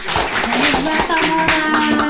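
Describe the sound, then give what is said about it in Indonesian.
An audience applauds at a children's day event. Dense, steady clapping fills the whole clip, and voices can be heard over it. “mari kita berikan tepuk tangan untuk Kamora dulu.”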